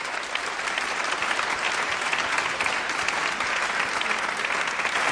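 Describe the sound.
Audience applause at a Quran recitation event as a prize is presented: a dense, steady clatter of many hands clapping, evenly loud from start to finish, with no single voice standing out.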